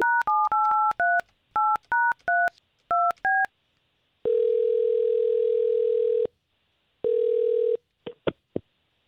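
Touch-tone telephone dialing to place a call: a quick run of keypad beeps, followed by two long steady tones and a few brief clicks at the end.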